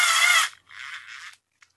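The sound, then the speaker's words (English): A battery-powered insulated screwdriver drives in a screw with two bursts of high whirring. The first is loud and the second fainter and weaker, followed by a faint click. “Okay, so now I'm going to, with my insulated screwdriver, I'm just going to screw this in and get it tight.”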